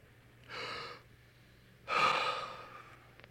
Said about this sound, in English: I want you to take three deep breaths with me.